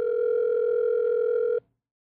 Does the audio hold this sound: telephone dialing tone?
yes